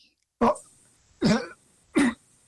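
A man clears his throat in three short, rough bursts spaced roughly a second apart, each loud and raspy against near silence.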